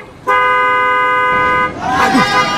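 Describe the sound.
A truck sounds a long, steady horn blast as it passes close by a bus, holding one bright tone for over a second before giving way to rough, rumbling road noise.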